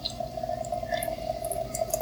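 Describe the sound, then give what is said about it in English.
Water pours from a Keurig coffee machine into a cup, a steady trickle over a constant humming tone that runs the whole time, with no talk. “So it's pouring into the cup now.”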